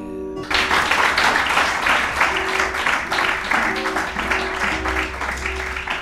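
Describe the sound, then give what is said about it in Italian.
Audience applause at a live folk concert, a dense, loud wash of clapping that starts abruptly and continues steadily to the end, with faint tonal sounds beneath. “Sì, vabbè, applauso, però non vedo accendini, queste cose.”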